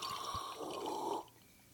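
Beer is poured into a glass as a soft, steady hiss of liquid that lasts about a second, then cuts off to quiet.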